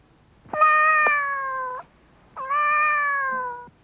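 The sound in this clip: A cat gives two long, loud, drawn-out meows, each lasting just over a second, with a short pause between them.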